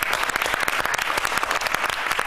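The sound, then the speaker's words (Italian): Audience applause welcoming a guest, a dense, steady burst of many hands clapping at moderate loudness, continuous from start to end with no talk over it. “il dottor Alessandro Castagnaro, che accogliamo con un buon bel applauso”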